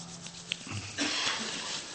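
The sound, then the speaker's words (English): Hands rubbing together, a soft, continuous swishing friction that starts partway through and keeps going steadily, faint, after a single small click. “Please rub your hands now.”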